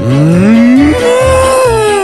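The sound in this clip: A single loud cow moo, a long tonal call lasting about two seconds. Its pitch climbs at the start, then holds steady and bright to the end, with no other sounds.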